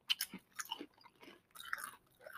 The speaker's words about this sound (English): Tastes like plain Pringles, right?